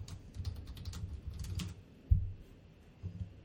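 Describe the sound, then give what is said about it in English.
Typing on a computer keyboard as a search query is entered: many quick keystroke clicks in a busy run, then one heavier thump and a few more taps, with no talk. “Let's type a couple more.”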